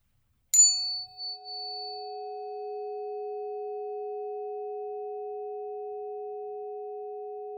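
Two pure sine tones sound together after a brief bright ding: one begins first, the second, lower tone joins a moment later, and both then hold steady and even for several seconds.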